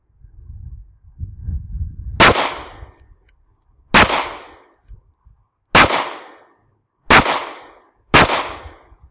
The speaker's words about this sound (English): Five shots fairly quickly. Still a pretty good one hole.